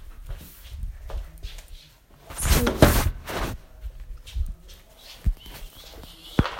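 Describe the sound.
Footsteps of a person walking from their room to another spot in the home. A few soft, uneven steps are heard, with a louder burst of scuffing and rustling in the middle.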